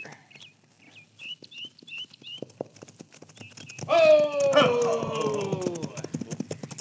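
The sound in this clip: Horse hoofbeats clip-clop in a steady, even rhythm as a rider sets off down into a small arroyo, with a horse whinny near the middle and a few faint bird chirps early on.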